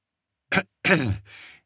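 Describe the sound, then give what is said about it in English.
A delicate little cough: a short, soft throat-clearing burst, then a quiet voiced hem and a breathy trailing exhale, heard alone. “he coughed delicately.”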